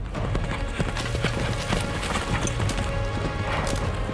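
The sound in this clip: Galloping hooves of a centaur racing wildly through trees: rapid, continuous hoofbeats over a loud, dense rumbling wash, with crashing thumps mixed in throughout.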